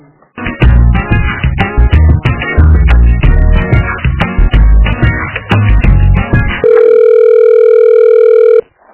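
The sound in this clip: Electronic telephone-line sounds while a call is transferred to another extension: a busy run of loud, melodic synthetic tones, then a single steady, unbroken beep that holds for about two seconds before cutting off.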